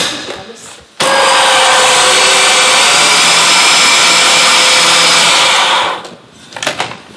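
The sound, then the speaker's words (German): A blender whirs loudly as it mixes a spice blend with turmeric under a closed lid, starting abruptly and holding a steady, high-pitched roar for about five seconds before winding down. “Mach den Deckel drauf und mix das kurz.”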